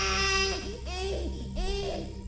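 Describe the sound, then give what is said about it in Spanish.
A newborn baby cries from a closed room in a series of wavering, high wails that rise and fall in pitch, several short cries in succession over a steady sustained tonal background. “don Agapito escuchó el llanto de un recién nacido”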